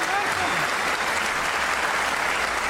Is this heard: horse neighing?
no

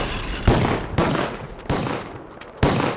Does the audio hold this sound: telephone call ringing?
no

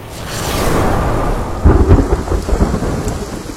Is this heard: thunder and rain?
yes

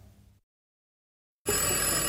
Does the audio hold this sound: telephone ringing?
yes

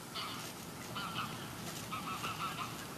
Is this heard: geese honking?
yes

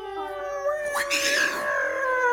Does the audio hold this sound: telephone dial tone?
no

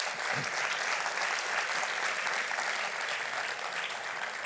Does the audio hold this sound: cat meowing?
no

